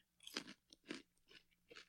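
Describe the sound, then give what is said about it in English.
A raw carrot is chewed with crisp, crunchy bites. Several sharp, fairly quiet crunches come in an uneven rhythm, with no talking. “You ready for this carrot ASMR?”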